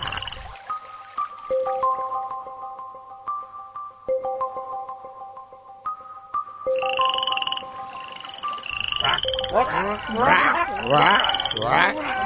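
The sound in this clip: Frogs croak in a cartoon-style scene. A simple melodic tune plays first, then a burst of rapid, overlapping chirping croaks takes over, loud and busy toward the end.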